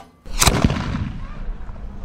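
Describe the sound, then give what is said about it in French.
A single heavy blast from an artillery gun firing a shell after its breech is closed, a sharp, loud crack followed by a rumbling tail that lingers and slowly decays. “Le tireur est assis là, il ouvre la culasse, l'artilleur introduit l'obus, le tireur ferme la culasse et fait feu.”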